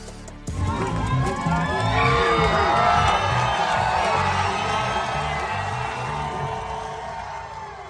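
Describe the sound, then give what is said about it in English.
Bills Mafia fans cheer and whoop as quarterback Josh Allen is welcomed to training camp. The crowd noise jumps up sharply after a brief lead-in, then holds as a loud, dense roar of shouts and high voices that eases slightly toward the end. “I want you to hear the reaction from the Bills Mafia when Josh Allen was welcomed to training camp. Listen.”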